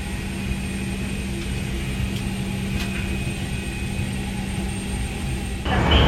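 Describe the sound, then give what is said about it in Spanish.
A steady, low engine hum fills an airliner cabin before departure, with faint tonal whines held throughout. A few soft clicks break through, and the drone grows noticeably louder near the end. Nobody speaks. “estoy aquí en el avión, ya nos vamos, ahora sí.”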